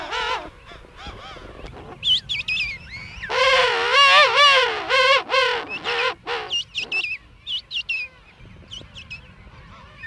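A penguin calls in a dense colony, a loud, harsh braying series of harmonic pulses, with shorter calls from other birds before and after.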